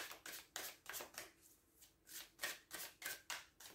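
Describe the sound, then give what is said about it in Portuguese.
Tarot cards being shuffled in rapid bursts: many crisp, papery riffles come in a quick, uneven rhythm, with a short quieter gap near the middle and no voices. “Vou tirar aqui três cartas de conselho para esta situação.”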